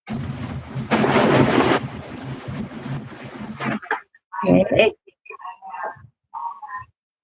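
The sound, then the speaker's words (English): Raffle tickets are stirred in a box in a loud, papery rustling burst that churns for a moment and then stops, followed by brief, softer, intermittent sounds. “So I've been stirring the box all night. And if anybody can see me, I will pull out the first one, which is going to be the $5,000 ticket.”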